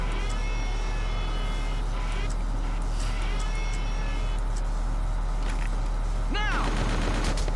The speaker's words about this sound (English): Machine gun this sniper then.